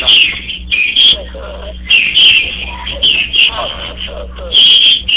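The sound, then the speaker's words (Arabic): Sparrows chirping loudly: repeated bright bursts of high twittering come and go in quick clusters across the stretch, with a low steady hum underneath. “صوت العصافير مرتفع.”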